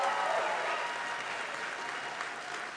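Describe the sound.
Audience applause welcoming a group of musicians: a steady, dense wash of clapping that holds at an even level for the whole stretch, with no talk over it.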